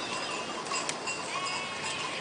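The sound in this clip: Sheep bleat at a livestock sale amid a dense, continuous wash of noise, the overlapping calls blending together without individual bleats standing out.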